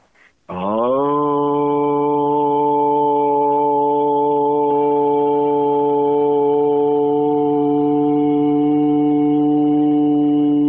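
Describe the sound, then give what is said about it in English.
A single long vocal tone chanting the Aramaic prayer word "Aun", held at one steady pitch with rich harmonics. It starts abruptly after a brief breath and stays loud and unwavering to the end, with no other sounds. “the first word from an Aramaic prayer sounds like this, Aun. And I'm just going to make one simple sound.”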